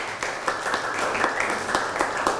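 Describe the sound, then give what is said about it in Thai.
Applause from a class for a group of students who presented on Phra Borommathat Chaiya in Surat Thani: dense, steady clapping from many hands, fairly loud and continuous, with a few sharper claps standing out. “พระบรมธาตุชัยยาเอาปรบมือให้เพื่อนหน่อยครับ”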